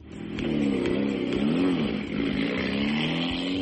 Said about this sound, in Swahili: Hili ni gari la dereva Mkenya Ian Duncan, gari aina ya Rover Vitesse, akishirikiana na dereva mwenzake Andre Nelson walipochukua nafasi ya 7 katika mkondo wa kwanza wa mbio za kimataifa za Eastern African Safari